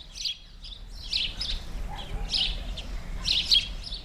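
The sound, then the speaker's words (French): A house sparrow sings in town, giving high, short, identical chirps repeated at irregular intervals over a steady low background rumble. “Il possède un chant aigu, court, répétitif, avec des notes identiques et répétées irrégulièrement.”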